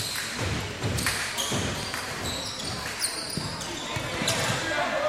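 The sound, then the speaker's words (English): Basketball dribbling on a court during a basketball game, with several sharp bounces at an uneven rhythm under ongoing commentary voices and court noise. “Now dribbles back up. They'll keep dribbling around.”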